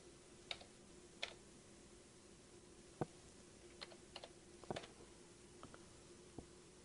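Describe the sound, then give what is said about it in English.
A few sparse, faint keystrokes on a computer keyboard as someone types in a verification code from a text message, with the taps spaced unevenly and no voices. “And once you receive your text message, you should see for the code, and I'm going to enter the code.”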